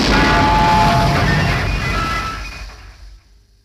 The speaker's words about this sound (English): Oh dear, the radio's exploded.